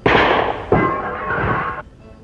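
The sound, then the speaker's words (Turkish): Two loud, sharp pistol shots from what was presented as a clown's cap gun in a radio drama, each a sudden blast followed by a ringing decay. “O tabancayı üstüme tutma sayın gazeteci. Korkmayın komiserim. Palyaço tabancası o. Kapsül atar. Bakın.”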